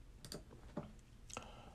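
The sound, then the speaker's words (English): A few faint, sharp keystrokes tapped on a computer keyboard, irregularly spaced and very quiet, with no voices. “you'll hear me typing, so I'm sorry”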